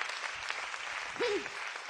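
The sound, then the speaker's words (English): Hand clapping from a church audience giving praise during a sermon, a quiet, even patter of many hands with a brief voice call rising over it midway. “Let's just stop right there and give the Lord a hand clap of praise right there.”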